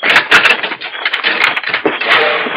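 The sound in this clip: Door bolt drawn back on the outside of a door: a scraping, rattling slide with a few sharp knocking clacks, dense and fairly loud throughout, no voices.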